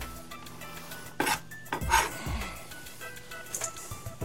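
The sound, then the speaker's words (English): Clinks and knocks of utensils against a bowl as a chocolate and butter mixture is scraped into it, a few sharp hits over a low background clatter. “So we're going to put it all in this bowl here.”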